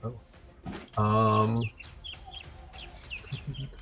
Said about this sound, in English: There's a bird in the sewer. Many birds.